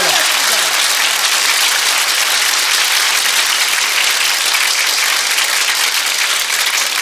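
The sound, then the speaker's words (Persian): An audience clapping, a loud, dense and steady applause that holds evenly from start to finish. “دست بزن، همه دست بزنن.”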